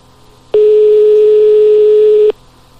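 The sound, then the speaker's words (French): A single steady telephone tone sounds while a call is placed to a nightclub, one unbroken mid-pitched beep lasting nearly two seconds over faint background hiss, loud and alone. “on appelle le club discothèque.”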